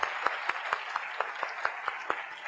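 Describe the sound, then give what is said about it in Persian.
An audience claps for itself at a talk, keeping a steady, even rhythm of sharp unison claps about every quarter second throughout. “و برای خودتون یک دست مرتب بزنید.”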